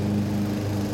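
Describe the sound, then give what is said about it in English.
Lawnmowers run in the background on an Ohio day, giving a steady, even, low mechanical drone with no other sounds over it. “Lawnmowers. It's the sound of Ohio.”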